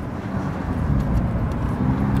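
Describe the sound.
Continuous low road rumble and engine noise from a vehicle driving at a little over 40 km/h, steady and even in loudness throughout, with no voices.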